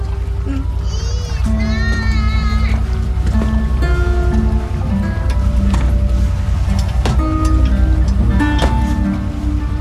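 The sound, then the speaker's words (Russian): Motor boat pulling away from the shore, with a steady low engine rumble running throughout and scattered clatter and tones layered over it. “Катер отчаливает.”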